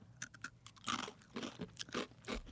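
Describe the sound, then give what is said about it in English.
Crunchy snack chips being chewed, giving many sharp, loud crunches in an uneven rhythm with no talking. “Definitely tastes like cauliflower. And crunch. It's very crunchy.”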